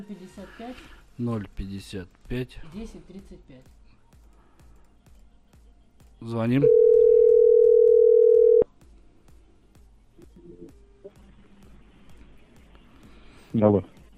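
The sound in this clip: A telephone dial tone sounds while a call is being placed, a loud, steady single-pitched hum lasting about two seconds. People talk before it, and a brief faint tone follows later.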